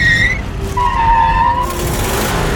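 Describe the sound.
A runaway car speeding out of control, its accelerator held down: a loud, constant engine roar with shrill tire squeals that bend and waver in pitch throughout.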